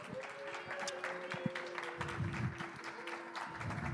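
An audience claps to welcome two people up to the front at a church gathering, with a steady patter of applause throughout.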